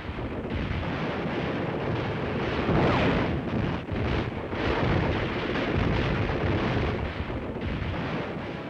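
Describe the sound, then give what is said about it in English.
Gunfire and tank cannon fire in a desert battle west of Kasserine Pass, heavy blasts blurring into a continuous rumbling roar of low booms and crackle, fairly quiet overall. “Here they fight it out gun to gun and tank to tank.”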